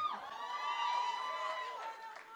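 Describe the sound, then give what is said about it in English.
An audience at a speaking event cheers and whoops. High, overlapping shouts hold at a moderate level for a couple of seconds, without a break. “Everyone give a round of applause to Ms. Aislinn Pulley.”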